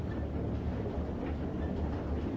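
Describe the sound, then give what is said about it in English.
Train riding on rails, heard as a steady, low, continuous rumble at a quiet level with no distinct clacks standing out. “you've got to get them to stop that train so we can get you off of it”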